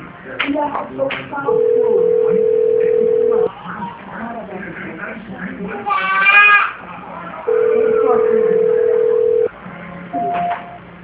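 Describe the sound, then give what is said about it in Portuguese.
Telephone line tones during a call transfer to São Paulo: two long, steady mid-pitched tones of about two seconds each, with voices and line noise between them and a short higher beep near the end. “Estou transferindo agora para São Paulo.”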